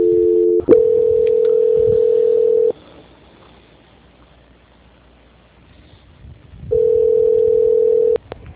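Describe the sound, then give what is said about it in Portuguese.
Telephone tone during a call transfer: a steady, loud mid-pitched tone runs for about two seconds and cuts to near silence. After a pause it returns for another stretch, with brief clicks at the changes. “Transferência.”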